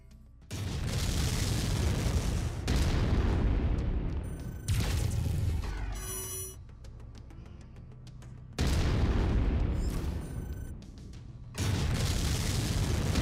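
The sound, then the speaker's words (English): Heavy explosions sound as a mech's center torso is destroyed in a mech combat video game: several loud, booming bursts with sustained rumble, separated by quieter gaps where thin electronic tones ring. “Destroying the CT will destroy the mech no matter its relative condition. Go ahead and destroy the center torso.”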